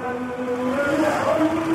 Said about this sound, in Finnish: Vaikka on sunnuntai, Bangladesin pääkaupungin Dhakan pääkadut ovat täynnä liikennettä.